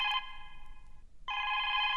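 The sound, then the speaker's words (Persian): A telephone rings in two bright electronic trills with a short silent gap between them, steady in pitch and fairly loud, with no voices. “اجازه بدین که من تلفن جواب بتام، باز امرتان گب میزنم. بله؟ الو؟”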